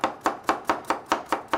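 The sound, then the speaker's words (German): A knife chops carrots for a soup in seven steady, evenly spaced strokes, each a crisp thunk against the board, heard alone. “Das Einzige, was hier klappert, das ist mein Messer. Ich hack nämlich gerade Möhren.”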